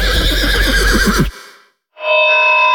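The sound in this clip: A horse neighs in a loud, shrill, quavering whinny for a trotting race meeting at Skive. It cuts off abruptly, and after a brief silence a sustained tonal chord begins.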